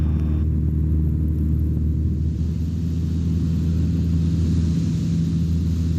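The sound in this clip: Light aircraft engine at full throttle during takeoff from the runway, a loud, deep, continuous drone that holds steady with no break or change in level throughout.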